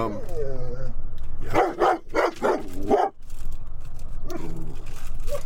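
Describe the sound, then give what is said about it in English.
A dog barks at mail carriers in a burst of several sharp, loud barks in quick succession, with steady background noise before and after. “Oh, those evil mail carriers. Oh, they're just terrible. Gotta bark them up. So we'll be doing this whenever she's got an opportunity to bark at somebody she's going to.”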